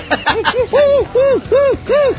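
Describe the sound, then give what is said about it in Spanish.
A human voice imitates a burrowing owl: a quick series of repeated hoots, each with an arching rise and fall in pitch. The hoots are fairly loud and grow fuller and more regular toward the end. “Este es un búho de las vizcacheras que acaba de detectar un fraude.”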